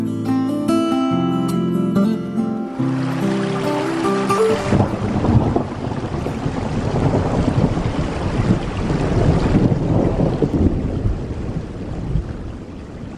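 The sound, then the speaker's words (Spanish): A storm with wind and rain makes a steady, loud, roaring wash of noise that goes on for the whole stretch after a brief musical opening. “Pero qué tormenta.”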